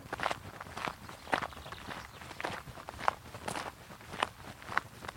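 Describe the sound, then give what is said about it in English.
Steady footsteps walking up a gentle climb along a track leading up from a main road on a warm day, a regular rhythm of many steps with no talk. “The first stretch of the walk is climbing up from the A road, and it's a gentle climb along a track.”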